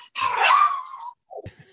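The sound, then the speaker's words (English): A dog's drawn-out whining groan, then a shorter, lower whimper after a brief pause. Both sounds are moderately loud and heard alone. “Who is that? That's a dog. He seems to find this especially painful, this part of it.”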